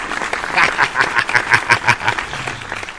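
Canned applause from a virtual studio audience, a loud pulsing burst of crowd noise that swells and fades over about three seconds.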